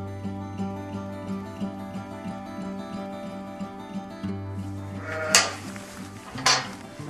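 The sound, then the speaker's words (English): A ewe bleats in long, sustained, wavering calls while giving birth to twin lambs on a farm. Two sharp metallic clanks cut in near the end. “The ewe isn't making progress, so Olivia steps in to help her deliver her twin lambs.”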